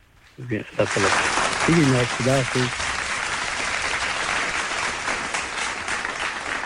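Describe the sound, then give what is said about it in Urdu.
Audience applause greets a guest. A voice speaks briefly at the start, then the clapping swells and carries on as a steady, full wash to the end. “بہت شکریہ سرکار یہ تالیاں آپ کے لیے”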